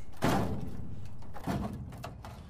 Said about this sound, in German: Ich krieg die Tür nicht auf.